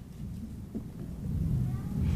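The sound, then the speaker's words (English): Thunder rolls as a low, continuous rumble that swells slightly toward the end, with no sharp crack. “Let's see if I can talk over the thunder here.”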